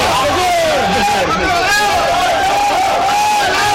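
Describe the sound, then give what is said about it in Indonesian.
Crowd cheering and shouting, a dense mass of overlapping voices that stays loud and steady from start to finish. “Sorakna. Suara redeh.”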